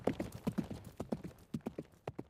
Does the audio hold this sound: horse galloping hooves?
yes